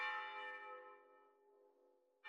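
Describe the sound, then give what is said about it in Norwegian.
Church bells ringing for a wedding in Kjelsås, Oslo: one loud bell strike rings with a rich metallic tone and fades slowly over two seconds, and another strike begins right at the end. “denne gangen skal det faktisk ende med kimende kirkeklokker.”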